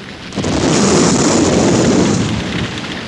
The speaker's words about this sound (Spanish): Otra explosión hizo brincar el coche.